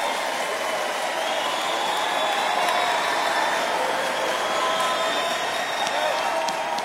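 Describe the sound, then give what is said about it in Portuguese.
Applause from the audience at a sertanejo country music show: a dense, hissing wash of clapping that keeps an even, moderate level for several seconds without a break. “Cadê as palmas de vocês, gente?”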